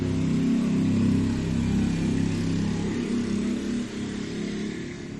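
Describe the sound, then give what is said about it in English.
A Honda Elite scooter fitted with a Harley Davidson motor drives around in circles, its engine a loud, continuous low rumble that holds steady with slight dips in revs. “Put like a Harley Davidson motor in and like a Honda Elite. The hell? And then he's just driving around in circles”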